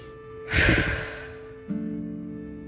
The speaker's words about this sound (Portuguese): Você vai sugar o ar e aí solta de uma vez. Faça por três a quatro vezes.